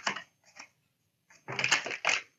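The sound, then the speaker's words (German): Tarot cards flipping during a shuffle, heard as bursts of crisp, rapid papery clicks. A few short flicks come first, then two longer and louder riffles. “man sagt, wenn die Karten flippen, dann kommt da was Gutes bei rum.”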